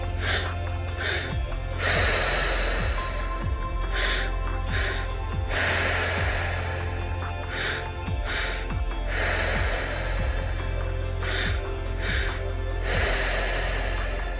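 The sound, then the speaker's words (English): Guided breathwork: two short, sharp inhales through the nose, then one long, hissing exhale. The pattern repeats about four times in a steady rhythm over a soft, sustained musical drone. “Two inhales, one exhale.”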